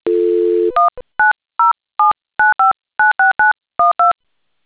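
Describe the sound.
Telephone keypad dialing tones: a brief steady dial tone gives way to about a dozen short, loud touch-tone beeps in an uneven, quick rhythm, each a clear pair of pitched notes separated by silence.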